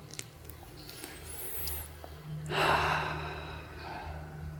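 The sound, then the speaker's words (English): A deep, slow breath is drawn in once, a soft airy rush that swells and fades, quiet over a steady low hum. “Sit comfortably. And take a deep and slow breath just to”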